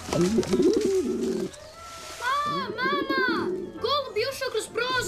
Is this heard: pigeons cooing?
yes